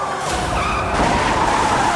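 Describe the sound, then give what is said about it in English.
A car skids out of control after being rammed during a police chase, a continuous roaring skid of rushing tire and engine noise with a thin screeching tone running through it, loud throughout, with no talk. “The officer's final ram sends the suspect skidding out of control.”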